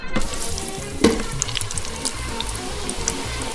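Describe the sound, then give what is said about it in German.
Potatoes deep-frying in oil at 190 degrees give off a steady, dense sizzle and crackle throughout, with a brief louder burst of bubbling near the start, heard alone without voices. “Und es riecht schon so, als wäre es fast fertig. Aber lassen wir es erstmal frittieren.”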